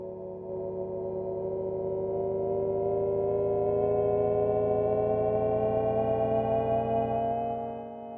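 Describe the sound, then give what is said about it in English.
Low-speed pedestrian warning sound from a Jaguar I-Pace electric car: a steady, synthetic, harmonic humming drone that holds evenly for several seconds before fading at the end, with no talking. “And now Jaguar is detailing the noise that will be generated by the I-Pace.”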